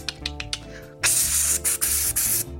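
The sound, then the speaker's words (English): Pepper spray hisses out in several loud, sustained bursts separated by short breaks, preceded by a few light clicks. “So we're gonna, like, pepper y'all with pepper spray.”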